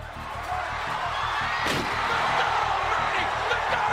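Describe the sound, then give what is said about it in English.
A single heavy crash as wrestler Mankind is thrown off the top of a Hell in a Cell cage through a table. The crash cuts through a steady crowd roar that grows slightly louder afterward. “So how does Taker fight back? He throws Mankind off the top of the cage.”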